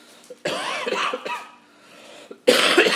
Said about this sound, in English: Apologize for my cough.